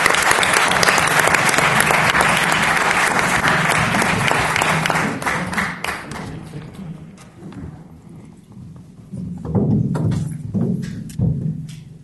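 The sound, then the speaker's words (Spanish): Audience applause at the inaugural gala of a dog fair, loud, dense clapping that holds for about five seconds, then thins out and fades, with a few scattered claps and thumps near the end. “Así que un aplauso y muchas gracias”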